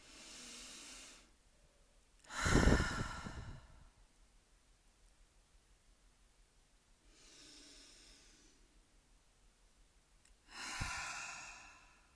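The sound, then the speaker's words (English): Slow, deep human breaths come in a few long, airy hisses of inhaling and exhaling, separated by quiet pauses. The middle breath is the loudest and fullest, and no one speaks. “I am going to take 3 deep breaths. I encourage you to join me.”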